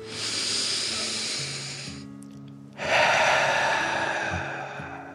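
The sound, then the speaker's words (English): A deep breath drawn in and let out, as by a dragon: a long airy inhaling hiss for about two seconds, a brief pause, then a stronger breathy exhale that slowly fades, over faint steady low tones. “Then the dragon took another deep breath in and out.”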